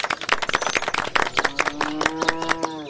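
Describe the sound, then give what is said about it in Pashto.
Audience of villagers clapping hands at a gathering about building a shared cultural centre: sharp, uneven claps in the first half, then a sustained voice joins the later, lighter clapping. “وایم لاسونه ورته وپړکوئ”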